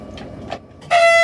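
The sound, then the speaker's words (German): A short train whistle sounds as the signal before departure of a remote-controlled test train at a station. A few faint clicks come first, then a steady, bright, high tone starts abruptly and holds to the end. “ZP1 ist übrigens der kurze Pfeifton vor Fahrtbeginn jetzt im Bahnhof Schlettau.”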